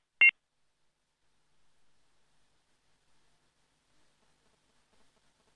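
A single short, high electronic beep as a phone call disconnects, then near silence with only faint, scattered rustles.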